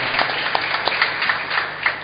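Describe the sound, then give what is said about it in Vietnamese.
A church audience applauding, a brief, steady burst of clapping from many hands, moderately loud and without voices. “Xin cộng đoàn cảm ơn một tràng vỗ tay thiết thực để nói lên tri ân của chúng ta.”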